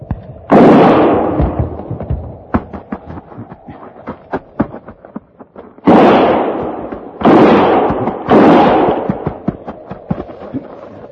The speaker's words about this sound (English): Start firing.